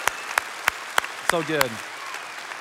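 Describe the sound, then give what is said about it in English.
Church audience applauding to welcome a newly launched campus: sharp claps in a steady, regular beat, with a voice speaking briefly. “Can we give them a huge round of applause?”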